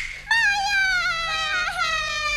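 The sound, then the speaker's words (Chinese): A young child cries in one long, unbroken wail. The pitch is high, sustained and tonal, drifting slowly downward as the sobbing goes on, with no pauses or speech. “啊，别哭了别哭了，哎呀，这白天都哭成这个样子，到晚上可咋办了呀？”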